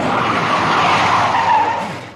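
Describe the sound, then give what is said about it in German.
A car braking hard and skidding: a loud, sustained tire squeal for about two seconds that fades out at the end, with no voices. “Drück doch die Bremse runter, ich kann doch nicht sehen,”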